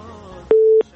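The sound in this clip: A single steady electronic telephone tone sounds as a call is connected on a radio call-in line. It rises abruptly after a faint low murmur, holds evenly for about a third of a second, then cuts off.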